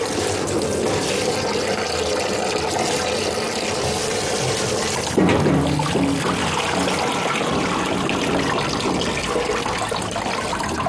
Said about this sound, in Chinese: 第二遍洗的时候就得一页页翻着洗，一定要用活水，活水能冲得干净。